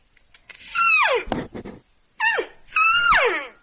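Elk calls made by a hunter: high, whistling squeals that glide downward in pitch. One call comes first, then after a pause two more follow almost back to back, with short rough bursts between them.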